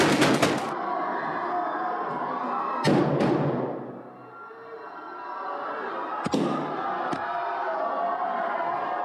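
Gunshots from a played video clip: a rapid burst of sharp bangs at the start, then a few more isolated shots over steady, noisy background sound.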